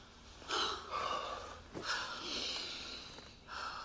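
A man lying on a bed blows out breath after exertion: a few quiet, breathy huffs and puffs come at uneven intervals, each a soft airy rush that fades.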